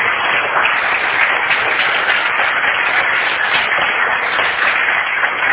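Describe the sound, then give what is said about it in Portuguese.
An audience applauding for Jesus after a sermon, a steady unbroken patter of many hands clapping together, dull and muffled in tone, with no break for the whole stretch. “Você pode aplaudir a Jesus pelo que nos falou.”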